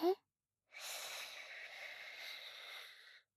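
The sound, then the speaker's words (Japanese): A deep breath drawn in slowly, a steady airy hiss lasting about two and a half seconds, heard alone after a brief soft sound at the start. “緊張しないで、リラックスリラックスですよ。ほらほら、深呼吸して。吸って。”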